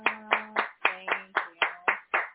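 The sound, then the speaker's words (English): A round of applause for a woman who reads verses at a religious gathering, heard as nine sharp claps in a steady, evenly spaced rhythm, each one bright and quickly fading. “Everybody that thinks Sister Leanne does a good job of those verses, please give her a big round of applause.”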